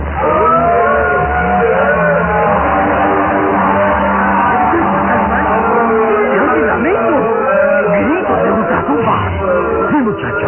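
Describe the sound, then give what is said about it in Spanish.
Shrill screams and wailing cries serve as a dramatized effect for carnivorous plants burning in a garden fire. They sound loud and sustained over a dense, rumbling wash of noise, with wavering cries rising and falling in the later part. “Gritos de ultratumba que brotan de las plantas carnívoras. Son como seres humanos, como fieras que gimen ante el dolor de la muerte.”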